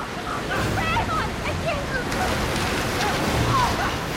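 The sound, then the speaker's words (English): Water gushes from a large pipe into a tank after a faucet is opened, making a loud, steady, rushing roar that lasts throughout, with voices over it. “Dylan opens a faucet and water spews from a large pipe into the tank. Maggie holds onto Connor as the water begins to flood the tank.”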